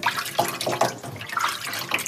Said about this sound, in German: Ich muss alles gründlich waschen.